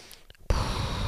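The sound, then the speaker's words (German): A deep breath out: a loud, breathy rush of air that starts suddenly after a near-silent moment and holds steady to the end. “Einmal tief ein- und ausatmen, meine Nerven stimulieren. Meine Nerven beruhigen”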